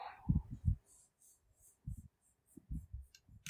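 Pen scratching across paper as someone writes, heard as several short, faint bursts of strokes separated by pauses.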